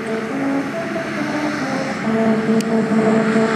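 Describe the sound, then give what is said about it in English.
A car drives over a musical road just north of Los Angeles that plays the William Tell Overture. Steady, loud tyre and road roar carries short, low tonal notes that change from one to the next. “And that one plays the William Tell Overture. And it sounds like this when you drive over it.”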